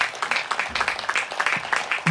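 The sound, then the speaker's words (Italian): An audience applauds to thank volunteers at a gathering, with dense, steady clapping that holds at an even level throughout. “facciamo ancora loro un applauso, veramente”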